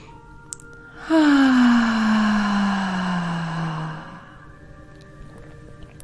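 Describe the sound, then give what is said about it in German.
A long voiced exhale during a relaxation breathing exercise, after a deep breath in: a breathy, moaning sigh lasting about three seconds, its pitch sliding gently downward before fading out. “Und dann atmest du aus mit Stimme. Nochmal gerne einmal mit mir zusammen tief einatmen.”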